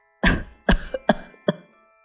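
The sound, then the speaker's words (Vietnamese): An old woman coughs four times in a row, each cough harsh and abrupt, with short pauses between them and a faint throaty catch after the second. “bà tù tì ho liền mấy cái”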